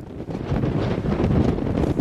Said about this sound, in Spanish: El levante, caliente, seco y a veces insoportable, puede soplar más de 150 días al año y superar los 100 kilómetros por hora.